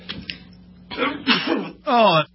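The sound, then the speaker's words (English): A few sneezes in quick succession, breathy bursts with voiced tails that grow stronger, the last one the loudest. “hold on, I'm sneezing.”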